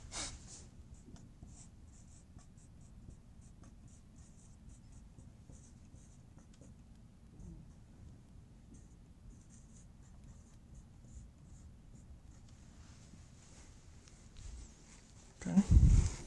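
Notes are written on a board during a lecture. A long stretch of faint, continuous scratchy strokes stays quiet throughout, with a louder thump near the end.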